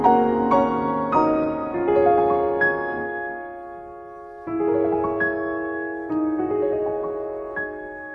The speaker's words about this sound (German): Hallo beim Kurzwellensender, Sie hörten Claire de Lune.